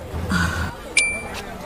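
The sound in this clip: A phone payment chime follows a phone being tapped to pay: a short, bright electronic beep with a sharp onset and a brief hold, coming after an earlier muffled tonal sound.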